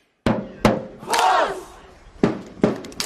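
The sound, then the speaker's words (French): French football supporters doing the Icelandic thunderclap chant at a tournament: a few loud, booming unison claps with a crowd's deep shouts between them, the claps widely spaced and a longer massed roar in the middle. “Voilà, un thunderclap, le salut popularisé par les supporters de l'équipe d'Islande dans ce tournoi, désormais adopté donc par ceux des Bleus qui l'ont repris à leur sauce.”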